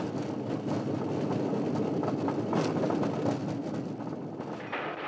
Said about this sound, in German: Unser Kameramann fährt auf den übrig gebliebenen Gleisen zwischen Ruwer und Trier.